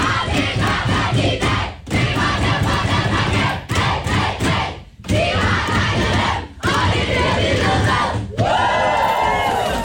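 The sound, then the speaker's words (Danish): Denmark's women's national football team cheering and yelling in the dressing room after a 4-1 win over Serbia, loud group shouts in a series of bursts broken by short pauses. “Det er lyden af de danske fodboldskvinder, det danske landshold for kvindefodbold, som altså var ret begejstret i omklædningsrummet i går, efter de havde slået Serbien”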